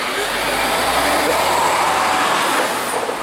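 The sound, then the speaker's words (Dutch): A train passes with a steady, loud rumble and hiss that holds at an even level throughout, with no distinct wheel clicks. “Hier is de trein.”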